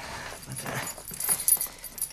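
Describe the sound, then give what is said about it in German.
Keys jangle as they are handed over, a house key on the ring, with light metallic clinks in a few quick bursts, faint and without talk. “So, Zweiter, gib mir den Schlüssel zu Mrs. Winterfields Haus.”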